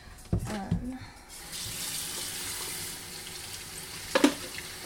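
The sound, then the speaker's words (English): Water running from a kitchen faucet into a crowded, overflowing sink during washing up, a steady rushing stream broken by a few clattering knocks near the start and again near the end. “I'm just gonna wash this really quickly, which means I need to get some of this stuff out of the sink because it's overflowing.”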